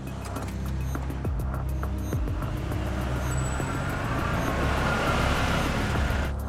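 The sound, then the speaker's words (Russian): A car engine starts and the car drives off at night, a steady motor rumble that builds and grows louder toward the end. “Он испуганно заводит машину и трогается с места.”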